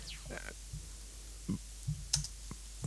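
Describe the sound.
Typing on a computer keyboard: several sharp, irregular key clicks, some close together, over a faint low hum.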